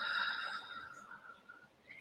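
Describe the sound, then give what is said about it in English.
A soft, airy inhale and exhale during a guided manifesting meditation, slow and quiet over a faint sustained tone that fades before the end. “And we inhale and we exhale.”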